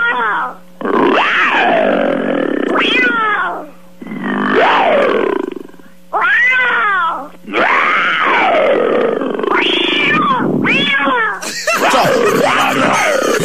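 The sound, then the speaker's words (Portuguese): Voices imitating lion roars and cat meows in a late-night karaoke duel: loud, harmonic, growling and wailing cries come in a run of long bursts with short breaks between them. “Tá aí mais um grande duelo de rugidos e miados no finalzinho aqui do nosso karaokê do Band Coruja.”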